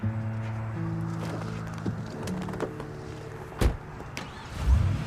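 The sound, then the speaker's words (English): Car sounds, with a steady low engine hum that fades partway through, followed by a few dull thuds and one heavier knock near the end. “Next, he climbs into Amir's car.”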